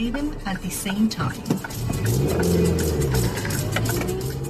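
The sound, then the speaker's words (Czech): A car drives, turning off the main road between Přibyslav and Žďár nad Sázavou onto a local road. Its engine gives a steady low hum that grows a little fuller partway through, with a few faint clicks over it. “Z hlavní silnice mezi Přibyslaví a Žďárem nad Sázavou odbočuji na okresku směrem na Pořežín.”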